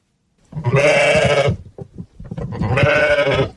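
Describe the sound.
Sheep bleat on a highland pasture farm with about 500 ewes and lambs: two loud, drawn-out, quavering bleats, with fainter scattered bleats between them.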